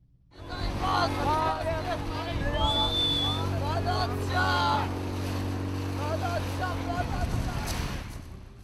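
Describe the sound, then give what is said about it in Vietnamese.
Inflatable boats packed with migrants arriving at the shore of Lesbos, Greece, in worsening weather, with a steady low engine drone and rushing water while a voice talks over it. “Trên đảo Lesbos ở Hy Lạp, những chiếc thuyền hơi chở đầy dân di trú tiếp tục đến, bất kể thời tiết ngày càng xấu.”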